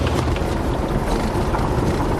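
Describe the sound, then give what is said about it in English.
Steady wind and engine roar buffet a small plane during a turbulent landing, a loud, dense rumble that holds almost unchanged throughout with faint irregular gusting. “Oh, we got some turbulence here. Yeah, it's windy in this part of the world. Hang on, we're about to touch down.”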